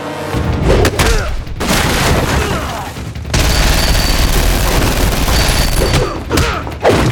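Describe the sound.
Rapid automatic gunfire at about twenty rounds a second: loud, dense crackling bursts mixed with booms, broken by a few short pauses, with no talk.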